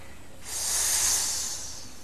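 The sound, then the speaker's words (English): A voice imitates a snake's hiss: one long, breathy hiss that begins after a brief quiet moment, swells, then holds steady for about a second and a half with no talk. “He hissed.”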